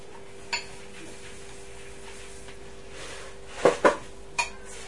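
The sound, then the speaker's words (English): A spoon clinks against a bowl while a mixture is stirred. There are four sharp, faint clinks: one early on, then three close together near the end, with quiet between them. “Yeah, stir it with that big one. Alright. Stir them in as I pour them in.”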